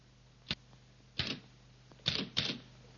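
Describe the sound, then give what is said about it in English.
Typewriter keys struck in a few sharp, separate clacks at uneven intervals, with the last two strikes close together. The keystrokes stand alone with no talk. “Lucy stabs at the keys”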